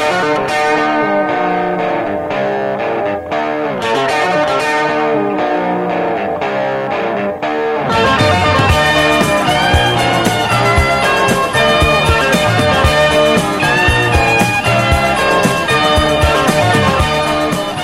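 Intro of a 1970 rock song led by gritty, distorted, amplified electric guitar riffs, loud and continuous; partway through the sound thickens and grows fuller as more instruments come in, with no singing.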